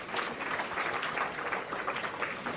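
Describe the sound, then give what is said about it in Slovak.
An audience claps in dense, steady applause that stays level and unbroken from start to finish, with no voices standing out. “Dobre, ďakujeme, zatlieskajte im.”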